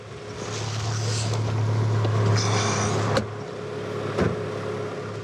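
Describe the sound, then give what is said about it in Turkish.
A turbocharged 2.3-litre four-cylinder overhead-cam car engine runs with a steady, rough low drone and a constant hum. Two brief knocks stand out near the end, and no one speaks. “Dört silindirli, üstten egzantrikli motor 2.3 litre. Daha önemlisi üzerine bir turbo takılmış.”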